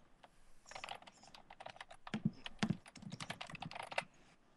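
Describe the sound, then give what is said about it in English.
Typing on a computer keyboard: many rapid, irregular key clicks and clacks in quick bursts, with a short quiet start. A few keystrokes land heavier, like the space bar or enter key. “hang on, I gotta type something.”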